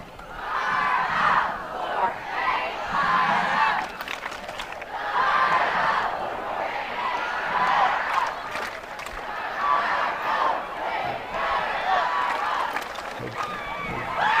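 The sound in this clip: A crowd cheers and chants at a school rally. Loud group shouts come in repeated rhythmic waves every couple of seconds, with cheering between them.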